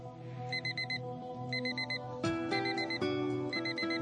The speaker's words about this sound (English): I turn off the alarm.